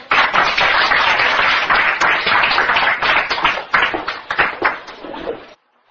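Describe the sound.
Applause welcomes the next speaker at a holistic health talk. Full, busy clapping starts at once, stays strong, thins slightly toward the end, then stops abruptly and leaves a moment of quiet.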